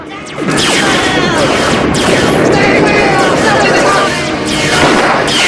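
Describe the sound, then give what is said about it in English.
Tank shells and space lasers firing in a dense, loud barrage while a building block explodes, a continuous roar of blasts and crackling impacts with sharp streaking zaps cutting through. “Tank shells and space lasers shoot about the area, and Evil directs one of them at a building block which some of the bandits are hiding behind. It explodes and they run for cover.”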